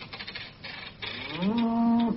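A cow in a barn among farm animals lets out a single drawn-out moo that rises slightly in pitch and then holds steady, following a few moments of faint, rustling background noise.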